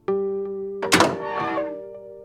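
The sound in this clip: An object is dropped and lands with one heavy, dull thunk partway through. A steady low humming drone continues underneath before and after the impact.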